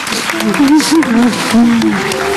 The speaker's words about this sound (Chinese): 好，我们掌声送给你们，回家。